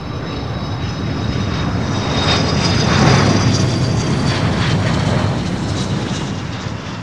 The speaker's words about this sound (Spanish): El Air Force One despega con destino Berlín.